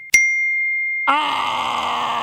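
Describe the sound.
A single bright phone message notification ding strikes sharply and rings out as a clear high tone for about a second, then a voice breaks in with a drawn-out, groan-like sound.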